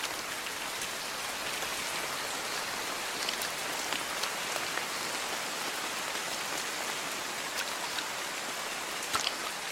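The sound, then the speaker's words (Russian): A heavy downpour pounds onto a forest canopy as a dense, steady hiss of rain, with scattered sharper drop hits throughout and no voices. “Над куполом леса хлещет ливень. Но под кровом широких листьев дождь едва достигает земли.”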